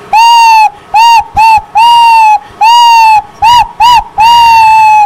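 Owl-hoot sound effect: eight steady, reedy hoots in a rhythmic long-short-short-long, long-short-short-long pattern, loud and alone with no other sounds.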